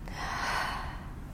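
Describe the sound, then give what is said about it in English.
A deep exhale from a guided breathing exercise, a single soft, breathy rush of air out through the mouth that stays faint and even for about a second. “And one last time, deep inhale. Deep exhale.”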